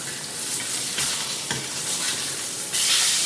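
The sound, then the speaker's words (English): A lamb shoulder chop sizzles in a frying pan with a steady, loud, hissing fry. The sizzle surges louder near the end, and no voices are heard. “So we're just going to pop that boned out leg. It's been seared on both sides. Going to pop it into a 350-degree oven for a little bit, let the center heat up. Looks like our shoulder chop is about done here.”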